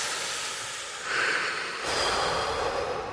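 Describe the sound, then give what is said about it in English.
A deep breath drawn in and then let out, as a soft airy hiss followed by a longer, fuller breathy exhale, faint and alone with no talk. “So let's take a break. Let's take a nice big breath.”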